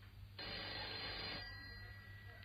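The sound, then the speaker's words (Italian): A telephone that has been ringing all morning sounds once, a bright, steady ring lasting about a second, then stops over a low hum with no voices. “Prendilo tu, per favore, io non ce la faccio più. È da stamattina che squilla.”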